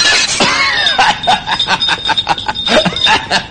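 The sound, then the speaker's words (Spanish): A thrown glass bottle shatters in a dense burst of crashing and clinking fragments. The sharp, jangling bits keep coming loudly for about three seconds. “Y ahora tira la botella.”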